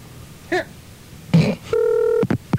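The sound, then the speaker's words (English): A telephone is dialed with touch tones: a few short electronic beeps and one longer steady tone, separated by brief pauses, with a short rustling burst near the middle. “Let's dial this one up here.”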